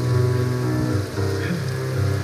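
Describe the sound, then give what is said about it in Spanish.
Rain falls in an enchanted, magical forest, a steady dense patter that holds loud throughout above a low droning undertone. “Bajo la lluvia, en medio de un bosque embrujado, mágico, como son todos los bosques del mundo”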